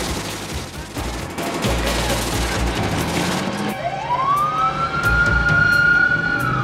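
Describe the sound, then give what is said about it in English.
Siren of an ambulance and a fire engine speeding by through stopped traffic in Little Italy: dense, loud traffic rumble, then a wailing siren sweeps upward in pitch and holds high and loud through the end. “An ambulance speeds by, as does a fire engine.”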